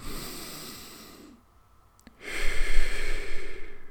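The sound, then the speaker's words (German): A person demonstrating a deep breath into the belly: two long, airy breaths separated by a short silence and a faint click, the second deeper and louder than the first. “dann nimmst du einen tiefen Atemzug ja, nicht so, aber in den Bauch rein so.”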